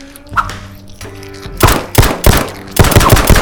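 Video game gunfire erupts in several loud bursts of rapid automatic shots, hard cracking volleys that start after a quieter stretch of low, droning tones.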